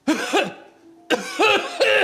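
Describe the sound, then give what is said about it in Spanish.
Coughing through a face mask comes in two bursts: a quick pair of coughs, a short pause, then a few more harsh, rasping coughs in close succession. “Bien, ya voy a repetir la operación ahora con la mascarilla. ¿Vas a toser? Sí, vamos a ver.”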